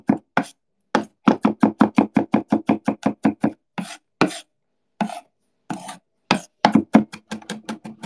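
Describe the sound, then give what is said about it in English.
Garlic being minced with a knife on a cutting board: many quick, sharp chopping taps in rapid rhythmic bursts separated by brief pauses, with no talking. “And you'll mince that garlic.”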